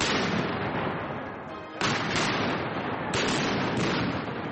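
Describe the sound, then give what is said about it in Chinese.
Cannon fire from 17th-century and American Revolutionary War guns at a military history event at a Virginia museum: a loud, sustained roar broken by two sharp new blasts, one after the other, with no voices. “17世纪的火炮， 开火。 还有美国独立战争时期的火炮， 开火。”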